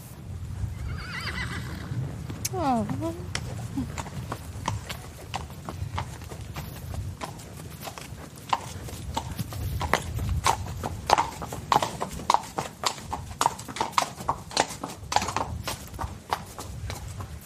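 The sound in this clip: Horses walking and neighing during a ride in South Africa's Cape region: many steady hoof clip-clops throughout, with a neigh early on.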